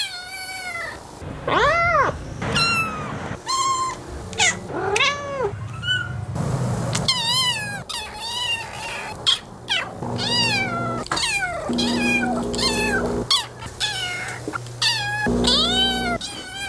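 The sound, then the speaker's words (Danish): Cats meowing in internet cat videos: many separate meows of varied pitch follow one another, some short and chirpy, others drawn out and wailing, loud and alone with no talk. “Ja, de her kattevideoer, de er i sin helt egen genre, og endda noget af et internetfænomen. Det skal opleves, men det kunne for eksempel lyde sådan her.”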